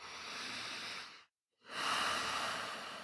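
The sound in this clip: A full, steady breath, heard as two long, even airy hisses of similar loudness separated by a brief silent gap.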